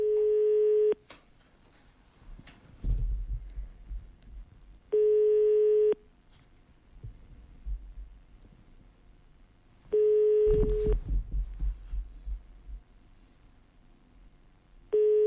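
A telephone line tone sounds during a call attempt: a few steady, evenly pitched beeps, each about a second long, separated by several seconds of low rumbling handling noise, with no talk.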